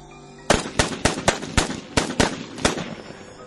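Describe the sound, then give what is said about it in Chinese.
A rapid series of sharp gunshots from rifles fired right after their magazines are swapped, each crack punching out evenly and loudly over a steady rumble. “刘金生和宋二愣子比我早半拍换好了弹夹，对着那人的脑袋开了火。”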